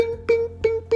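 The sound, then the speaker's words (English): A voice imitates tiptoeing footsteps with four short, evenly spaced sung 'bing' notes on one steady pitch. “bing, bing, bing. That was the sound of his tiptoes.”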